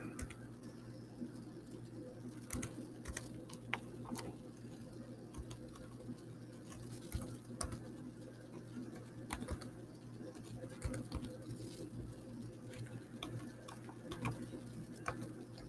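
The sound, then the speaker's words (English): Faint computer keyboard typing: sparse, irregular clicks scattered over a low steady background hum. “Let me type it again.”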